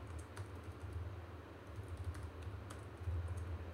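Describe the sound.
Typing on a computer keyboard as a sentence is written out: many soft, irregular key clicks, quiet and steady, over a low hum with no talking.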